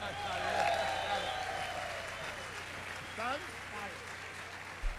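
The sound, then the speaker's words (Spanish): Soft audience applause for a music group at a live concert, steady clapping that slowly thins out while a voice talks over it. “¡Un aplauso!”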